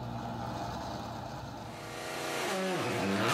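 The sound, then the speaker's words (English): Rally car engine on the Toyota City super special stage: a steady, loud engine drone whose pitch dips and then climbs again near the end as the sound grows louder. “Short winning spin around the super special Toyota City Stage saw a successful end to the day for Sebastian Ogier as he ends it in the lead in front of the fans.”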